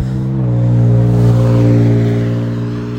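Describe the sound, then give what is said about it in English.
Car passing by while someone is out on a walk: a steady low engine hum that swells in loudness toward the middle and then eases away, with no voices. “we'll let that car pass.”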